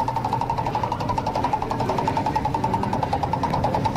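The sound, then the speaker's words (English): A prize wheel spins with a fast, steady, even ticking that runs loud and unbroken throughout, with no voices. “Let's spin the prize wheel for you, buddy, and we'll see what we can come up with.”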